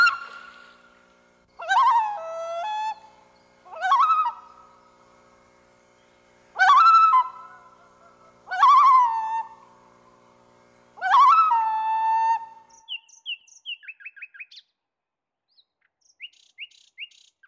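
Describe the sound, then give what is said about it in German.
A bird calls in a series of six loud, drawn-out descending cries separated by pauses, followed by a run of quicker, softer, high-pitched chirps. “Dein Vogel ist da.”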